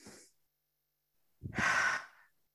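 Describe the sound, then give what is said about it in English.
A deep breath is drawn in: one full, airy inhale that is clearly audible, with only a faint breath sound before it and quiet around it. “So let's take a breath.”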